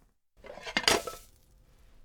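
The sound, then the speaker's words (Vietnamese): A frying pan clinks against a plate as an omelette is flipped out of the pan onto it: a single short clattering burst of metal and crockery that fades into quiet. “Một tay giữ chảo, tay kia giữ đĩa, rồi úp chảo thật nhanh để phần trứng tráng sẽ chuyển qua đĩa.”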